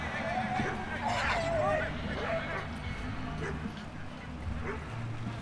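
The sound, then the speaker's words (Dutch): Dogs playing, giving scattered yips, barks and whimpers beneath steady crowd chatter and nearby talk. “Oh, kijk, dus de honden gaan lekker spelen.”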